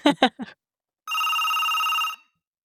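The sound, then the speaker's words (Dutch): A telephone rings in one continuous, bright, trilling burst of about a second, starting after a short stretch of talk and then stopping into silence. “Er wordt eerst even gebeld.”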